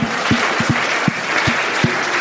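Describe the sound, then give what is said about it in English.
A round of applause from a group, dense and steady clapping that holds at a fairly loud, even level for the whole clip, with a few soft low thumps mixed in and no voices. “Round of applause.”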